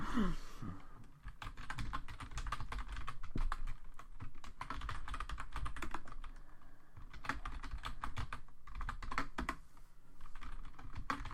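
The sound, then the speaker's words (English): Typing on a computer keyboard, a long run of quick, light key clicks in an uneven patter, fairly faint and alone. “I'm gonna type something in.”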